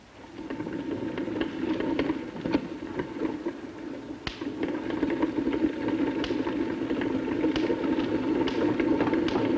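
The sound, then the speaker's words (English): A hand-cranked belt generator whirs steadily as it is turned, punctuated by sporadic sharp snapping sparks jumping between a wire mesh and a ball. “You can see that as I slowly rotate the crank, this belt is moving. And then if I rotate the crank a little faster, you will see a spark jumping between this wire mesh and this ball over there.”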